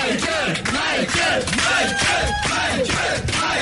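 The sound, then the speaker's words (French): Fans give an ovation at a live show, a loud, continuous roar of crowd cheering with yells and whoops rising out of it. “alors que là, il y a toujours l'ovation, bien sûr, de ses fans qui sont venus nombreux de la France entière, de l'Europe entière.”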